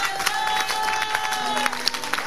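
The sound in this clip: A church audience clapping and cheering during a sermon, a lively spread of claps with a few sharp peaks over a sustained crowd murmur.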